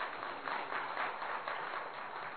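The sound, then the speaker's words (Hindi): An audience claps during a motivational talk, a faint, muffled and continuous patter of many hands that stays even throughout with no one speaking. “Tali बजाइए।”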